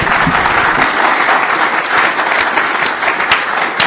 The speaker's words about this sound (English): Let's give Jack a round of applause for